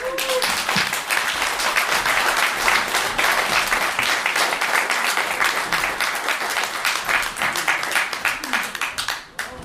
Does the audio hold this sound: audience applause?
yes